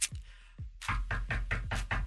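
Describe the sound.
Knocking sound effect: two isolated thumps open it, followed by a quick regular run of firm knocks, each a short dull hit with a slight ring.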